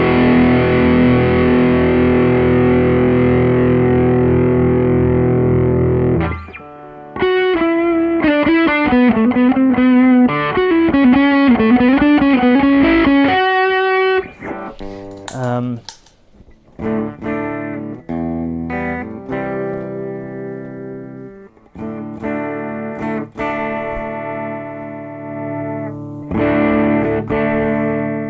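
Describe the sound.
Electric guitar played through a boost pedal that adds a strong lift in level, sounding loud and gritty, with a long sustained chord, then quick melodic runs and bends, brief pauses and further ringing chords and phrases, with no talk.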